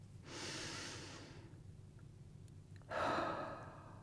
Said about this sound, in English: I want to invite you to take a breath with me.